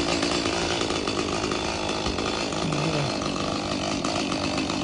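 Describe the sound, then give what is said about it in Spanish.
A chainsaw cuts down a palm tree, its engine a loud, steady, continuous roar with gritty cutting noise and no pauses. “está listo David para cortar la palmera.”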